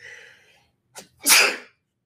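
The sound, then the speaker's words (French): A single human sneeze: a short breathy intake comes first, then one sharp, loud, explosive burst that fades quickly into silence. No one talks. “mon éternuement était juste parfaitement timé avec la fin de ma phrase. C'est facile à couper dans ce temps-là.”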